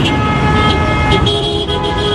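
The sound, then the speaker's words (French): Car horns honk over congested traffic on a main boulevard in Kinshasa as vehicles crawl out of the city centre at mid-afternoon. Steady, loud horn tones ride over a dense, constant rumble of engines. “Il est à peine 15h et le boulevard du colonel Mandjiba, l'une des principales artères pour quitter le centre-ville, est déjà saturé. Les véhicules roulent au ralenti.”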